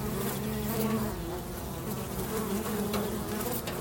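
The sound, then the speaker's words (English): A swarm of bees buzzing in a steady, dense drone, with a low hum and layered shimmering overtones that hold without a break from start to finish, with no voices. “That's the sound of a swarm of bees, which might not immediately suggest warmth, but we'll get to that.”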